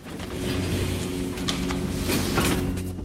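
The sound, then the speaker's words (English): Lift doors sliding open, a low steady mechanical hum with a few brief rattling swishes on top, no voices. “The lift doors open to reveal a stark, shadowy space.”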